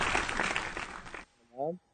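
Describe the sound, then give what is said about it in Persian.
Hands clap steadily on a comedy radio show during a phone call. The clapping breaks off abruptly and is followed by a brief voice. “برای قبلی ما دست نزدیم، بذار دست بزنیم برای قبلی.”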